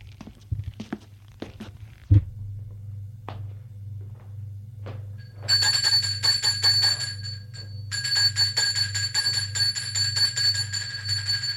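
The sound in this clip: A doorbell rings at a parents' house: two long, bright electronic rings separated by a short gap. Before them come a few scattered clicks and a single dull thud over a steady low hum.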